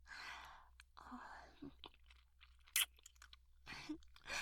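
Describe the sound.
Soft chewing and mouth noises of someone eating, with breathy, moist bursts and one brief sharp crunch partway through, quiet and alone without talk.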